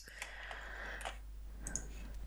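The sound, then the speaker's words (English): A few faint, sharp mouse clicks on a binoculars icon in Photoshop Elements Organizer, short dry ticks spaced irregularly over a low steady hiss. “So I'm going to uncheck it and click on this binoculars icon to turn off watch folders.”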